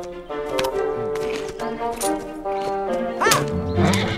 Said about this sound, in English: He tosses the stalk to his horse.